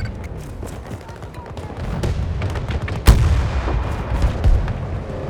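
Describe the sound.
Gunfire and rumbling blasts in a military shooter video game with Russian-held objective sectors. Shots and booms sound throughout, one sharp loud shot stands out midway, and a man talks over the battle.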